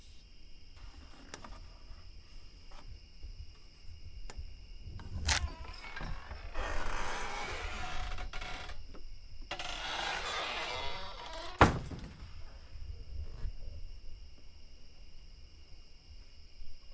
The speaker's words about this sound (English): This is the sound of stepping out from a little cabin at a scout camp and listening to the night unfold by a lake in the Adirondacks.